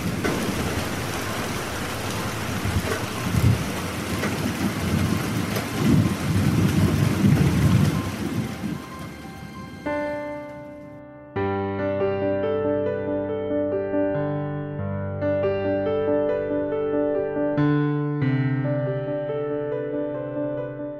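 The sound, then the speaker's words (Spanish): Heavy rain pours through a thunderstorm over a forest, a dense hiss with low rumbling thunder underneath for about ten seconds, then music takes over. “Se acercaba una gran tormenta, una tormenta que duró toda la noche.”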